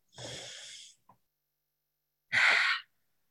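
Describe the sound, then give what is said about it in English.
A deep breath: two airy breathing sounds with no talk, first a longer, softer rush of air, then after a pause a shorter, stronger one. “Let's all take a nice deep breath.”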